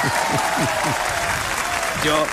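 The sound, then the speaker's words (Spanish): An audience applauds two performers with dense, steady clapping that fills the whole clip, while a voice talks over it. “Es aplauso para ellos, por la última.”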